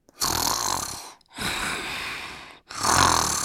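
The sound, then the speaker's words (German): A man snoring during an afternoon nap, breathing through his mouth with a blocked nose: three long, rough, rasping breaths with brief pauses between them, loud and alone. “Das ist mein Papa, wenn er Mittagsschlaf macht. Stimmt. Dann atmet er beim Schlafen wahrscheinlich durch den Mund, weil seine Nase verstopft ist.”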